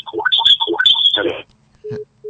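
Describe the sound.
Telephone line tones after a dropped call: a warbling, garbled electronic sound for about a second and a half, then a short silence, then a steady low beep, with another beep starting at the very end.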